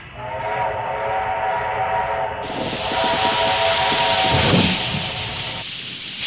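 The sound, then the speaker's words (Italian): A steam train hisses in a steady, loud rush of steam, with a sustained whistle-like tone running through most of it and no voices. “Senti questo suono. Questo è un treno a vapore.”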